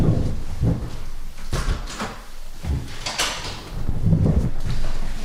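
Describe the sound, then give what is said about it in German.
A window being closed makes a few soft sliding scrapes and dull bumps in uneven bursts, with a muffled low thud at each movement and no speech. “wir machen mal Fenster zu hier.”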